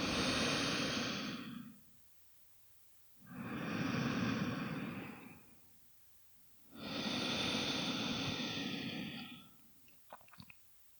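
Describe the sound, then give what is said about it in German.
Calm breathing in and out through both nostrils: three long, slow, airy breaths of about two to three seconds each, separated by pauses and followed by a few faint clicks at the end. “Atme jetzt ganz bequem durch beide Nasenlöcher ein und aus.”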